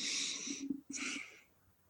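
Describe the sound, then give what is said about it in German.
A person coughs in two harsh, breathy bursts, the first slightly longer, separated by a brief pause and fading out afterward, with no speech. “Ich muss mal ganz kurz husten.”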